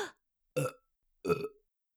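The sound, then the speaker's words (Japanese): Heavy, thick burps: three rough, low bursts separated by short silences, with the last one the longest and most drawn out. “本当に濃くて大量でイカ臭いゲップが止まりませんの。”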